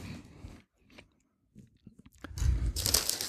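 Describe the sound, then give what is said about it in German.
Organic tomato-basil potato chips made with sunflower oil are handled and eaten: scattered faint crinkles and crisp crunches, then louder, denser crunching of chewing toward the end. “machen wir weiter im Bereich My Chips Box und diesmal mhm. haben wir Tomaten Basilikum. Ja. Ähm, ihr könnt mal probieren.”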